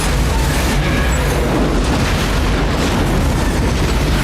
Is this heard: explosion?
yes